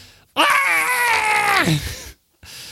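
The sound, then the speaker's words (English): A human voice imitates a scream of pain with one long, loud, sustained cry that drops in pitch as it trails off, followed by a brief silence. “So you pull out the first bolt, and he screams,”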